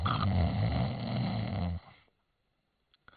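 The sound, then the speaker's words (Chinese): A voice imitates loud snoring with one long, rough, rattling snore lasting nearly two seconds. It cuts off into silence, followed by a faint brief click. “大呼噜，这呼噜震天”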